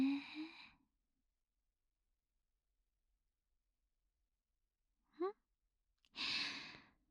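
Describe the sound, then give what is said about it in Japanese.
A long, breathy exhale during a guided breathing exercise for a child: after a short spoken phrase and a long quiet gap, a brief faint chirp comes, then a soft, airy out-breath trails off. “はい、止めて、吸って、はい、長く吐いて、”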